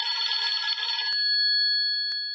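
A telephone rings with a buzzy, high electronic tone. The first second is rough and textured, then the tone settles into clean sustained pitches broken by two sharp clicks.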